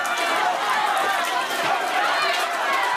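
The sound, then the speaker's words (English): A crowd of Palestinians rushing to secure food at a charity kitchen in northern Gaza: a dense, continuous roar of many overlapping voices shouting and chattering, with no pauses or single standout sound. “That's the sound of a charity kitchen in northern Gaza as Palestinians rush to secure food”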